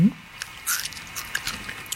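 Someone bites into grilled insect food and chews it: a firm crunchy bite, then a few softer crackling crunches as the chewing goes on.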